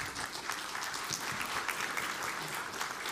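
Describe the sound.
An audience claps to welcome a woman speaker one morning, a soft, steady, even wash of applause that holds at the same level from start to finish.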